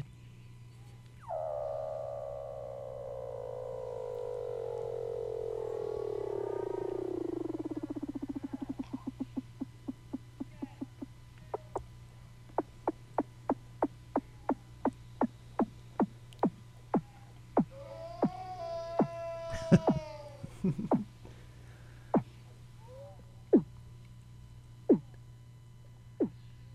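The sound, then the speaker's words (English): Weddell seals call under Antarctic ice. A long whistle glides steadily downward in pitch, then breaks into many sharp rhythmic pulses that speed up and spread out, with a warbling chirp in the middle, all over a constant low hum. “Those were the vocalizations of Weddell seals. Those are marine mammals. They're the southernmost reproductive mammals in the world.”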